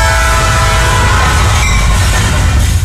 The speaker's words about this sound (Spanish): Un tren a 25 kilómetros por hora recorre 200 metros antes de detenerse.